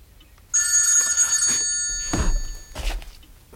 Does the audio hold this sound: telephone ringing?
yes